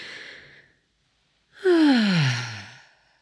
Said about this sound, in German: lass uns gemeinsam einen tiefen Atemzug nehmen, einmal die Augen schließen und hinunteratmen bis in den unteren Bauch.